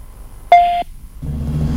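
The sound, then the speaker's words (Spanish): Voicemail beep tone: a single steady, fairly bright tone lasting about a third of a second, then a low, steady hum. “Por favor, deje un mensaje. Después del tono, después del tono.”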